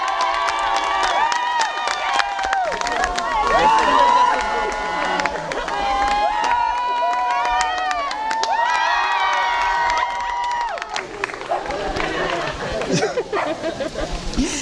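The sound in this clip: A crowd of friends, parishioners and family cheering and shouting as a priest makes a bungee jump, a loud, continuous roar of many excited voices with whoops and yells throughout.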